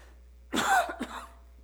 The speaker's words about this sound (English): I thought I'd make it without coughing.